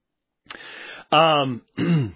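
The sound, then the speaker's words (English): Coughing and throat clearing from a person preaching a church sermon, three rough, voiced bursts in quick succession, the last two louder and groaning in tone. “I do apologize for the coughing.”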